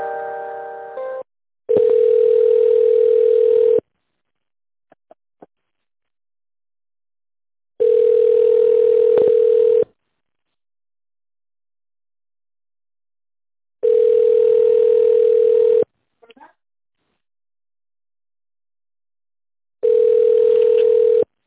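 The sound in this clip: A telephone line plays a steady tone while a call is being transferred: four long beeps of about two seconds each, separated by roughly four-second silences, with a short burst of mixed tones and a few faint clicks at the start.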